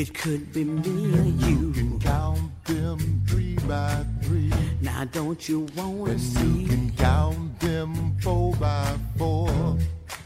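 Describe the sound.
A lead singer and backing vocals sing counting verses of a song over a steady beat and bass, the singing continuous throughout.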